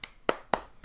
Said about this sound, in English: You clapping for how good we are.